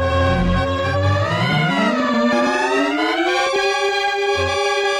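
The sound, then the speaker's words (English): A theremin tone sonifies a satellite image of the Antarctic ozone hole, a continuous wavering electronic note that glides smoothly, dipping and then sliding steadily higher before leveling off and holding loud throughout. “Depending on the brightness of the image, the theremin will make a different sound. The brighter, the higher the note, darker, and the note goes down.”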